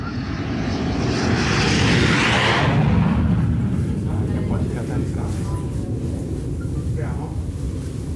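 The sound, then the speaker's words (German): An aircraft engine roars at the small airport in Padua, northern Italy, as a continuous loud, broad rumble that swells over the first few seconds and then eases slightly while holding steady to the end. “We are at the airport in Padua, a small city in northern Italy. We are on a site visit with other artists preparing for a festival.”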